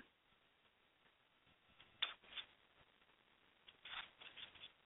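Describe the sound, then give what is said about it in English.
Cards being shuffled and pulled for a card reading: soft, papery riffling with louder flurries of shuffling near the middle and toward the end. “So I am going to pull some cards for you, or a card.”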